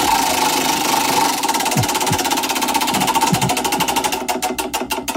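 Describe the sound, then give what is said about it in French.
A prize wheel of fortune or misfortune is spun, producing a loud, rapid run of clicking ticks that blur together at first and then slow into distinct, evenly spaced clicks toward the end. No voices are heard. “Tournons la roue, la roue du bonheur ou du malheur. Je tourne la roue.”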